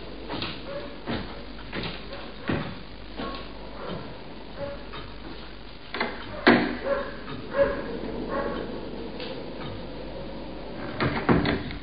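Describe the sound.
A dog barks a few times indoors, short sharp bursts scattered over faint background noise with occasional knocks and clatter.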